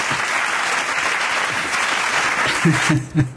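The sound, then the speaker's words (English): Steady applause from a group, a dense and even wash of clapping that fills the whole stretch, with a voice briefly rising over it near the end. “I think this deserves an applause. Yes, I think you deserve it.”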